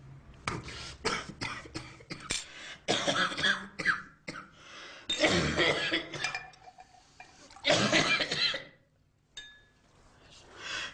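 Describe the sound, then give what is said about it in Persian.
Coughing from someone whose food went down the wrong way during a meal: many harsh coughs in bursts and clusters, mixed with throat clearing and pauses between fits. “چرا پرید تو گلوت؟”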